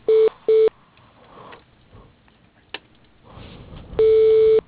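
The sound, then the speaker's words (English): Telephone call being transferred to voicemail: two short electronic beeps, a quiet stretch of faint line noise, then a long steady tone at the end. “I can put you in Nathan's voicemail. Just a moment.”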